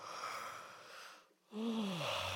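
An exaggerated, voiced yawn demonstrated as a singer's vocal warm-up, its tone sliding steadily downward in pitch after a brief quiet gap, preceded by a soft breathy hiss.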